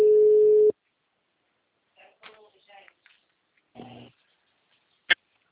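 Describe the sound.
A single steady ringback tone on an outgoing phone call lasts under a second, followed by short bursts of talk and a sharp click.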